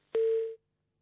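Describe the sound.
Telephone line tone after a call is cut off: a single short, steady beep lasting under half a second, then silence.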